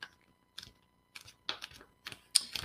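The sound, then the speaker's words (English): A sheet of paper is folded in half and creased down the middle, making several separate bursts of crisp crackling and rustling with quiet gaps between them. The last bursts are the loudest, and no one speaks. “let's fold this sheet of paper in half so that we get a nice crease down the middle”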